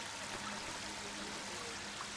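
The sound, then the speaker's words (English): Water sprays steadily from a sprinkler in the Pikmin video game, a continuous even hiss with no talk over it. “There is a water sprinkler. But also, there's a frozen gel thingy.”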